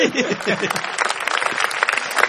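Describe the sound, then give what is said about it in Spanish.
Live audience applause: dense crackling claps that run the whole time, with a voice briefly at the start. “Mire cómo aplauden igual.”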